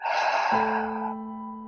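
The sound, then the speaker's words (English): A deep breath in and out during a guided breathing exercise: one soft, breathy rush of air that gradually fades, with a steady sustained low tone entering partway through and continuing beneath it. “We will be taking 3 deep breaths here. Breathe in and breathe out.”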